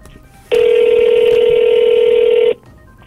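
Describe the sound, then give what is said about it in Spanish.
Ringback tone on an outgoing telephone call: one steady, buzzy ring lasting about two seconds sounds alone against faint background hiss, then stops abruptly. “Sí, está entrando la llamada. Ojalá nos contesten.”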